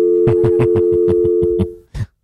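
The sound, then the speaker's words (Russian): Telephone tone while a call is being dialed: a steady buzzing line tone runs under a rapid series of short pulses, ending with one separate burst after a brief pause. “Сейчас пока наша главная дачница дозванивается до человека.”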